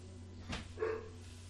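A dog barking while following a trail: a couple of faint, short barks over a steady low hum.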